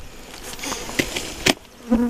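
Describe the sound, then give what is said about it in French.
Buzzing of bees around beehives that produced honey, beside organic farm fields: a steady insect drone with a few short, louder bursts and no voices. “Ça, c'est les, ruches qui ont servi à faire le, miel de la vente”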